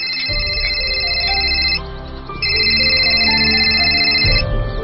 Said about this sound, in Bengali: বাবা, তোমার ফোন বাজছে।